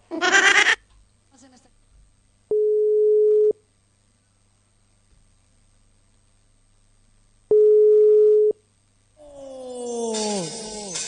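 Phone ringback tones from a call going unanswered: two steady, mid-pitched electronic tones of about one second each, separated by silence, with other brief noises at the start and end.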